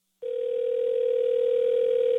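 A telephone dial tone on the line just before a prank call: one steady, unbroken mid-pitched tone that starts abruptly and holds evenly to the end.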